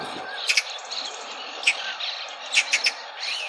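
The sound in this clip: Magpie calls played in a bird-guessing game: a few short, high, scratchy notes, some closely paired, fairly faint over a steady high hiss.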